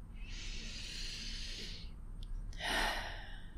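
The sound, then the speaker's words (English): A deep breath is taken during a guided meditation: a long, airy inhale, a short pause, then a shorter and fuller exhale. It is soft and heard alone, without talk. “let's all start by taking a deep and grounding breath.”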